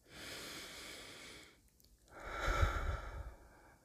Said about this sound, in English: She takes a deep breath.